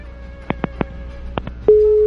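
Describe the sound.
A telephone line tone sounds on a caller's faulty line. Several short, faint blips are followed by a loud, steady, unbroken mid-pitched tone that holds to the end.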